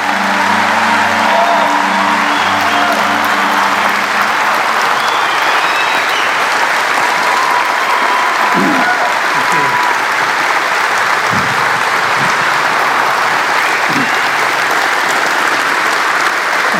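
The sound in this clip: Loud, sustained applause from an audience welcoming a guest speaker to the platform, a dense, continuous clapping wash that holds steady throughout.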